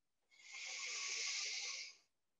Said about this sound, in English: Breathe in and reach your arms out and up above your head.